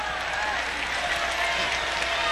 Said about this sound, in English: How about a big round of applause and welcome for Steve Baskerville.